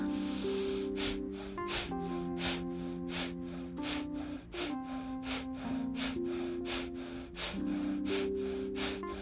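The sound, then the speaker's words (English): Breath of fire, rapid forceful yoga breathing: many sharp, evenly spaced breath puffs in a quick, steady rhythm, loud over sustained background music tones. “And now you've begun a little breath of fire.”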